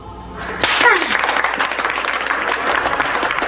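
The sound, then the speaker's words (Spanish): A class of students applauds their professor. The clapping starts abruptly with a sharp onset and keeps up as a steady, dense patter to the end. “Es que usted se merece ese aplauso.”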